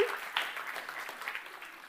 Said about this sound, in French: Ah oui, ah, tu veux applaudir le Seigneur.